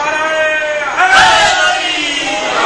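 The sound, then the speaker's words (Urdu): A crowd at a religious gathering shouts the Naara-e-Haidari slogan. One held voice gives way to a sudden, loud collective cry in the middle, which then eases back into sustained voices. “یہ جو میں اور آپ نعرے حیدری لگا رہے ہیں”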